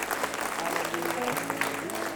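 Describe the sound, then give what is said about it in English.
A church audience claps its hands in praise, with steady, dense clapping throughout and voices mixed in. “If you believe that confession, clap your hands and give God some praise in this place.”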